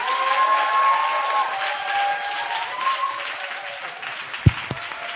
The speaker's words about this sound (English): Right now, let's put our hands together.